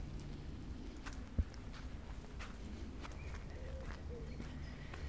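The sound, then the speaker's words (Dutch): Faint footsteps sound as someone walks along the edge of a castle park. Soft, regular steps sit over a steady low rumble, with one sharper thud early on. “Ik loop nu echt langs de rand van eh, het kasteelpark.”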